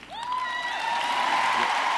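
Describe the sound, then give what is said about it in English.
A political debate audience cheers and applauds, a dense bed of clapping that swells slightly while a long, high, held whoop rises early and carries over the crowd. “The audience cheered.”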